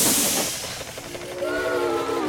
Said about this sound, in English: You've got the switch going the wrong way. I've played with this train before.